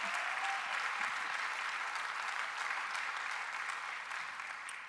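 Applause from a church audience welcoming a guest pastor to the stage: dense, steady clapping from many hands that fills the whole stretch without a break, with no voices over it, easing slightly toward the end.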